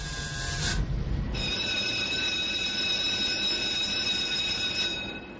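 Ship's engines start up as a vessel prepares to leave once the pilot is aboard: a steady mechanical rumble joined after about a second by a high, even whining tone that holds throughout.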